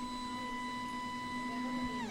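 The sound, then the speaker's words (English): A 3D printer runs as it warms up, giving off a steady electronic whine with several clear tones stacked above a low hum, the tones sliding downward in pitch near the end. “Oh, yep, it's working. The printer takes a minute to warm up.”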